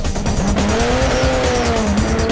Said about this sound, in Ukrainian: Машини-мафіозі легко впізнати у вуличному потоці за басовитими нотками глушника.